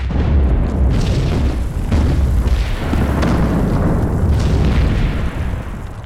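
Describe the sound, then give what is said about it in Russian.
Quarry blasting explosion: a heavy, deep rumbling roar that stays loud and sustained for several seconds, with rolling low booms and no pause, easing slightly only at the very end. “Отец Царёва взорвал карьер.”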